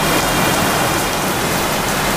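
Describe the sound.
Heavy rain in a thunderstorm, a dense, constant, loud hiss of falling water that stays even throughout, with no other sounds standing out.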